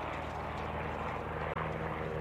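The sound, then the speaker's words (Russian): Droning engine of a light airplane flying overhead above a steppe slope: a loud, steady propeller hum with a low buzzing harmonic tone that holds throughout, broken only by a momentary dip near the end. “Описав дугу, над склоном пролетает легкий самолет.”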